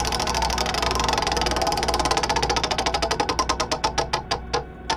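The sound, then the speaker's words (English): A prize wheel spins with rapid ratcheting clicks that blur into a dense clatter, then slow into distinct, spaced ticks as it winds down toward the end. “let's do the business and let's spin that wheel!”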